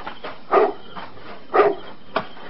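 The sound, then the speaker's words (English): A dog barks at night, three sharp barks at uneven intervals, loud against a quiet background. No voices are heard. “Now, what are you barking at? There's nothing out there in the dark, stupid dog.”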